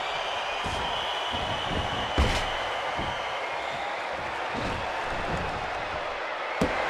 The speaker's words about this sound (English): But another power slam.